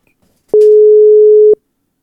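A single telephone ringing tone sounds while a call is being placed: one steady, mid-pitched beep lasting about a second, starting and stopping cleanly, with no voices around it.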